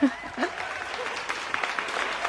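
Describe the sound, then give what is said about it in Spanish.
A crowd applauds at a political rally with continuous, fairly quiet clapping, and voices are heard briefly over it near the start. “Mira, aplausos ahí, ¿no? Por el acto.”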